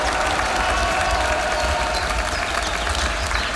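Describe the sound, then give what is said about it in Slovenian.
Crowd applause from members of a political party at a picnic held in the shade, a dense, continuous wash of clapping that stays loud and even throughout. “Dajmo en aplav za vse nas, ki smo danes tukaj na pikniku v senci.”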